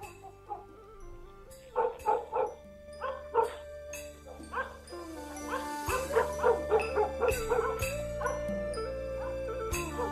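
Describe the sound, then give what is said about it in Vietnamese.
Dogs barking in a village at nightfall: many short barks and yips in uneven clusters, some overlapping, heard over a steady sustained tonal backdrop. “Đúng lúc ấy, tiếng chó ở trong làng lại cắn lên nhấm nha nhấm nhặng.”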